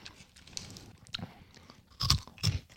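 Crunching and chewing of a firm, crunchy snack shaped like thick spaetzle noodles, slightly stale like old corn puffs. Soft chewing gives way to two louder crisp crunches near the end, with no talking.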